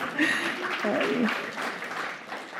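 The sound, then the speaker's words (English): A live audience claps at a book talk, a fairly quiet, continuous patter of many hands with some voices mixed in. “This clapping is going to give me a seriously swollen ego.”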